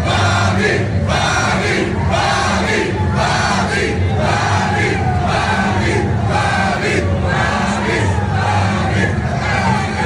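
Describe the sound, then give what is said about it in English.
Hockey fans in an NHL arena chant for goalie Sergei Bobrovsky, a steady pulse of many voices repeating a short name over and over. The chant is loud and continuous, with an even rhythm throughout. “You heard the fans last night chanting, Bobby. Make you feel good. Let's hear it again.”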